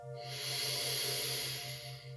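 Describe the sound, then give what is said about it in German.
A single deep breath, a soft, breathy rushing hiss that swells and then eases off over about two seconds. “nimm an dieser Stelle vielleicht nochmals einen tiefen Atemzug.”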